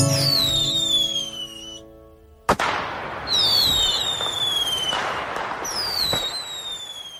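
Fireworks go off with several long whistles that fall in pitch, then one sharp bang, then more whistling rockets over a dense crackling hiss. The bursts are loud and overlap, with no voices.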